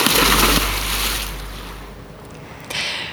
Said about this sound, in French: Je vais vous quitter bientôt, je vais aller me baigner, et vous allez plonger avec moi.